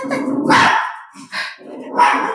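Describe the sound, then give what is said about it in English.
A pet dog barking, a few loud, rough barks in quick succession with short pauses between them. “Because, sorry, my dog is just... That's okay.”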